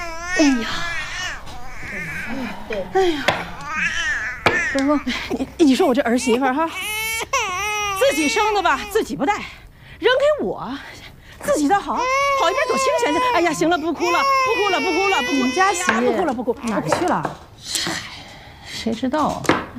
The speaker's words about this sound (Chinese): 哦哦哦，行，啊，不排了，咱不哭了啊，不哭了，等会儿啊，奶奶摸牌啊。